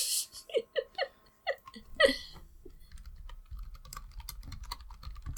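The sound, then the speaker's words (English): Fingers type on a computer keyboard during an online search, producing a rapid, uneven run of light clicks in the second half. A burst of short laughing syllables comes just before. “Now I'm Googling types of alien.”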